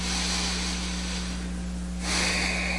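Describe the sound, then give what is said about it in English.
A church audience takes a collective deep breath together, a broad airy hiss over a steady low hum that swells slightly louder near the end. “But let's all just take a collective deep breath right now.”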